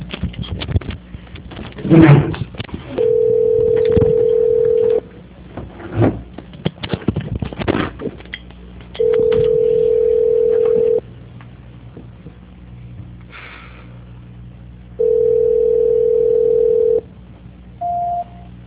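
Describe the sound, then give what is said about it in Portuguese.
Telephone line tone during a call transfer: three long, even, mid-pitched tones of about two seconds each, separated by stretches of faint noise, then one brief higher beep at the end. “Obrigado, senhor, só um minuto, por favor. Transferência.”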